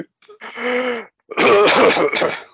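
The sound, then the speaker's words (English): A person wheezes during a breathing exercise: first a strained, tonal breath, then after a brief pause a longer, louder, raspy exhale. “just audibly wheezes”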